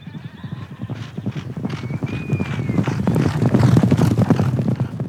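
A ridden goat's hooves clip-clop in a quick, steady rhythm of many sharp hits over a low rumble, growing gradually louder toward the end.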